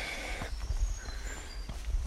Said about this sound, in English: I'm just heading through some woodland and some steps